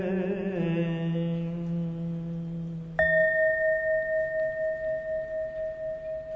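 A single bell strike rings out sharply, then sustains a clear, steady tone that pulses with slow, regular beats as it hangs in the air. A lower sustained tone fades just before the strike.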